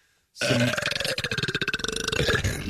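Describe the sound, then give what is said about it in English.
A long, loud burp begins abruptly after a brief silence and rattles on for about two seconds in a rough, pulsing rhythm before trailing off. “You can't burp in space.”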